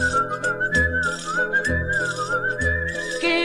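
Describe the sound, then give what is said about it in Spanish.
Whistling in the manner of La Gomera's whistled language: a continuous clear whistle gliding up and down in pitch, with low rhythmic thumps beneath. “La isla de La Gomera tiene un secreto consigo, es la única en el mundo que habla con el silbido.”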